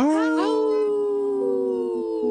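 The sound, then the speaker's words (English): Howling voice drawn out across about two seconds: it starts with a rising, wavering cry and settles into a long, steady, loud tone that dips slightly in pitch toward the end. “Howl. Right on cue. We have three howlers.”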